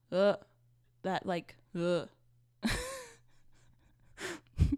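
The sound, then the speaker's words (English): A person groaning in a few drawn-out voiced bursts with falling pitch, followed by breathy exhalations and short gasps toward the end. “sorry, I don't want to be groaning in your ear.”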